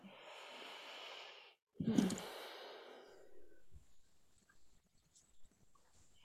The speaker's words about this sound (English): Let's take a deep breath all together so that we can land together in this space.